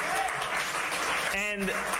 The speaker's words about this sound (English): We can clap for that.